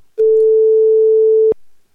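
A single steady telephone ringing tone holds for about a second and a half, then cuts off with a sharp click as the call is picked up, leaving near silence.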